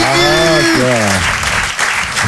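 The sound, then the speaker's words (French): A small group applauds a wedding announcement. A loud shouted voice rings out over the first second, then dense clapping carries on alone at a steady level. “Ouais, on peut s'applaudir.”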